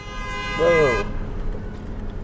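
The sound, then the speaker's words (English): A car horn honks from behind a 2011 Ford Crown Victoria: one steady, loud toot lasting about a second, then it cuts off and leaves low road noise. A short voiced exclamation overlaps the end of the horn. “Whoa. Yeah, people always get behind me and honk the horn.”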